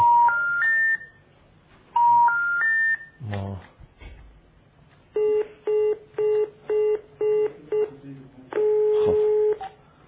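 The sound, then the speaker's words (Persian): Telephone tones as a number is dialed and the line rings: a rising three-note chime plays twice, a quick burst of clicks follows, then a run of short, even beeps ends in one longer tone. “دیار میزنیم دیگه، شماره هم که ثبت شده ببینیم آیا اینا جواب خواهند داد یا خیر.”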